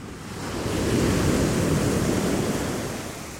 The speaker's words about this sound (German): Also, ab auf die Fähre und rüber nach Hallig-Hoge.